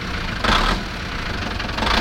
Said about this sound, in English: put the boat in gear. and slowly pushed the throttle ahead